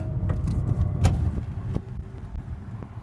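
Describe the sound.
Low, steady road rumble inside a car being driven, with a few sharp clicks and light rattling like jangling keys; no voices.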